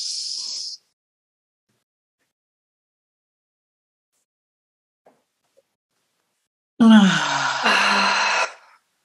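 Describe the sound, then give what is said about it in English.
A long, loud voiced exhale follows a breath hold in pranayama breathwork. It comes after a brief breathy hiss and several seconds of silence and lasts almost two seconds. “And before we exhale, let's just suspend the breath a moment and just feel the pulsating of that prana throughout your whole being.”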